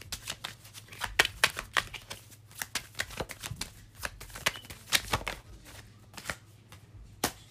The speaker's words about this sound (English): All right, we're going to get a few more cards.